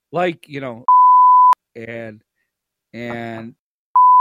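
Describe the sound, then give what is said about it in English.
Censorship bleeps cover spoken words. Two steady, high-pitched beep tones cut in between bursts of people talking, and the second bleep starts right at the end. “and when I beep them out, they'll think we said the S and F words.”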